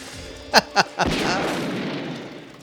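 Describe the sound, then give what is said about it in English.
Gunshots from a movie scene played back, three sharp, loud bursts in quick succession, the last trailing into a sustained low rumble that slowly fades. “Is that guy shooting a gun upside down? Watch, here it is.”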